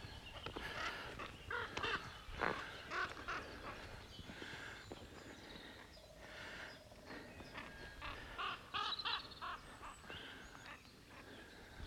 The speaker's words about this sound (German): Ja, zwei Krähen. Ich tippe mal auf Krähen. Im Balzflug, im Formationsflug.